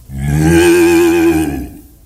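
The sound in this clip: A cow moos once in a long, loud, low call that holds a steady pitch for over a second before fading, with no other sound around it.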